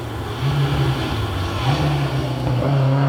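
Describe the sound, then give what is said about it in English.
Ford Escort BDA rally car driving past fast, its engine a loud, continuous droning roar with a strong low hum that wavers slightly in pitch throughout. “Escort, BDA Escort, yeah. Coming now, through. This is going to be a fast car.”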